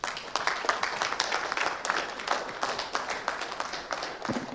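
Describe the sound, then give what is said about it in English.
Applause from a church audience welcoming a pastor at a morning service: dense, steady clapping that fills the whole stretch at an even loudness, with a few sharper claps standing out near the end. “Put your hands together as a welcome, Pastor Eddie.”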